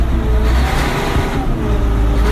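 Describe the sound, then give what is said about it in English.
A 570-horsepower 9RX tractor engine under throttle gives a deep, loud, continuous rumble with a dense low growl and even noise above it, and no clear talk. “This is a 9RX tractor with 570 horsepower. And a lot of torque.”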